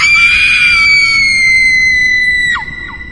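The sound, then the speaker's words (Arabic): A child screaming: one loud, high, sustained shriek that slowly sinks in pitch, then breaks off with a quick downward drop and a short fading tail. “واول ما قال كده سمعت صوت صرخ الطفل جايه من ناحيه عمر”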